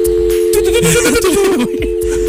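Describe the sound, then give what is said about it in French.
A telephone sound effect: a steady, loud, low dial-tone hum runs throughout, with clicky, warbling noises layered over it. “J'aurais besoin d'un bruit de téléphone.”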